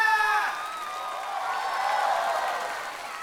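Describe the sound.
Applause and cheering from an audience after a singer's final song of a performance, a loud burst at the start that settles into steady clapping mixed with scattered shouts.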